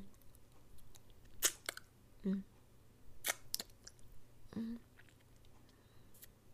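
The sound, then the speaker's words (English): Licking with wet mouth sounds: a few sparse, soft smacks and clicks spaced apart over quiet background, faint and unaccompanied by other noise. “And oh, look at that pre-cum oozing out the end. I just lick it off.”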